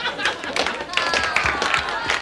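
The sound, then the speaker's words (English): People in a room clap with bursts of hand claps and some pitched cheering, mixed with voices talking over them. “People in here are clapping for them.”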